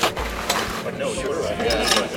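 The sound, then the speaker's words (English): A machine with a clamp pulls up old carpet at Portland's airport, giving recurring low rumbling strains mixed with rattling mechanical clicks and clanks. “I'm hooking the clamp to the carpet so the machine can pull it up.”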